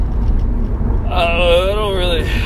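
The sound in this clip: A car driving home on the road gives a steady low rumble throughout, and a brief voice-like tone rises over it in the second half.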